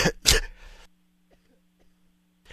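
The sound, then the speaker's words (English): A man coughs while speaking: two short, harsh bursts close together, then near silence with a faint low hum. “I'm fighting a cough here.”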